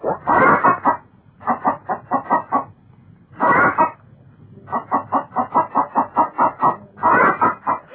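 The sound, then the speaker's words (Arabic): Hens clucking in quick runs of short, rhythmic clucks, about five bursts of varying length separated by brief pauses, fairly loud and with no talk over them. “الكاكايات بتاعتهم صوتها غريب، بيكاكو كاكايات مرعبة. انا عندي فرخة حولة بتكاكي، مش بتقول كاك، بتقول كعوك.”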